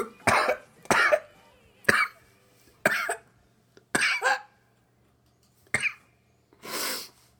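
Coughing fits from someone who has inhaled a hair from their own mustache: six sharp, loud coughs in an uneven rhythm, then a longer, breathy rush of air.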